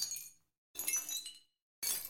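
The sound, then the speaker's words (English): Glass crash sound effects with the loud initial attack cut away leave three quiet bursts of tinkling, clinking glass shards, each separated by silence. “here's our crash sounds again, but I just took the front off them, the attack of the sound, as it's called. Took the loud bit off the top,”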